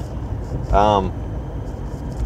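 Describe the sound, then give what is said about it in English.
A car driving on the road, with a steady low engine and road rumble inside the vehicle and a brief tonal sound midway. “I'm still driving and I'm still on the road, hence the podcast name.”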